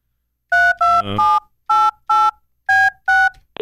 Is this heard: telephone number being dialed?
yes

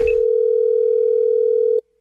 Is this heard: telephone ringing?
yes

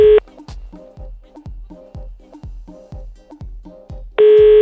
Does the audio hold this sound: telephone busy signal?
yes

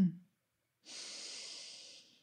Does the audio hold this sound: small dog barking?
no

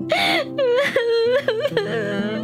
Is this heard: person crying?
yes

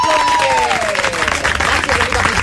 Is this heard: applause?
yes

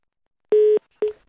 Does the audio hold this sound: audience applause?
no

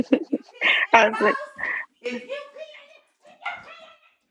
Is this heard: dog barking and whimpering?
yes

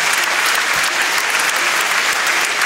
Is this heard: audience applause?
yes

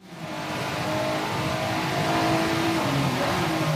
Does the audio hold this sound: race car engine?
yes

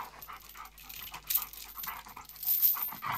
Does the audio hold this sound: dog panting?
yes

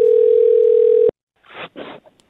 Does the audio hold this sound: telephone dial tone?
yes

